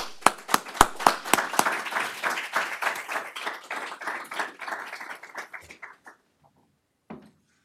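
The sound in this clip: Audience applause welcoming Senator Ted Cruz to the podium at a Hudson Institute national security conversation. A few sharp claps open it, then it swells into steady applause and thins out to silence.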